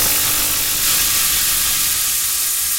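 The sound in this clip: A loud, steady sizzle and hiss rises as dry white wine is poured into a hot pan of rendered guanciale fat over raised heat. The bright, even crackle continues without a break and no voices are heard.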